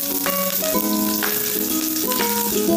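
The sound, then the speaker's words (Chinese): Scallions and minced garlic fry in hot oil in a heated pan, a loud, steady crackling sizzle that runs throughout under background music. “开火，锅热了以后加油，然后加入葱花还有蒜末爆香。”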